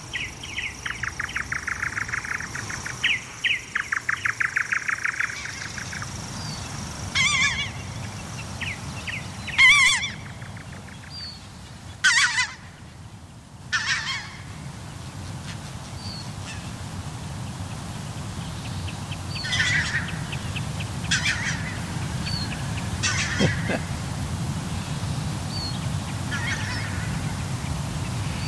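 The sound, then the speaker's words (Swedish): Greylag geese cackling at night: repeated nasal honking calls in clustered bursts, some loud and some fainter, over a steady rushing background noise. “Som det är, hör man lite kacklande från grågässen.”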